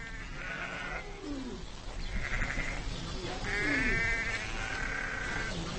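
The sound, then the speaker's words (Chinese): A ewe bleating in labour while giving birth to a lamb, with a few drawn-out, wavering bleats rising over a steady noisy background. “在几个小时的挣扎和嘶嚎后，他终于生下了小羊羔。”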